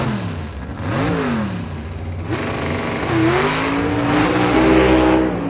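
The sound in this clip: A souped-up race car engine revving and accelerating, its loud tone surging up and dropping back a few times before climbing through longer rising pulls toward the end, heard alone without talk.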